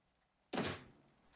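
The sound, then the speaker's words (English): A door swings shut with one solid thunk as a man in a wheelchair closes it behind him on returning to his room. The sharp, loud impact fades over a short tail, with no voices around it. “He wheels himself back into his room and closes the door behind him.”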